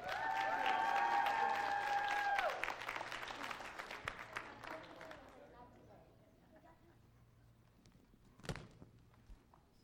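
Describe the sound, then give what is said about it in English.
A church audience applauds to welcome a Sunday school teacher, a dense clatter of clapping under sustained tones that thins out and fades over several seconds, leaving a quiet stretch broken by a single thud. “church, if you guys can, please put your hands together. And let's give a very warm welcome to one of the best Sunday school teachers that I know, Miss Anita.”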